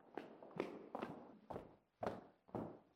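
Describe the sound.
Footsteps of people walking across a café to another room: six faint, soft steps in an even, unhurried rhythm.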